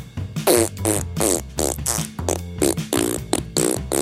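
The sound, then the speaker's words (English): A voice imitating a T-Rex fart: loud, low, buzzing blown raspberries in several long bursts with short breaks, pitch wobbling and sliding between them, performed alone without speech. “This is how I think a T-Rex fart sounds like.”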